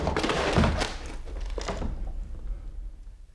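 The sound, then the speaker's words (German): A door being broken open in a crowd scene of a staged drama: a heavy thud near the start, then a few further thumps and crashes within dense noise that slowly fades. “Man bricht die Tür auf.”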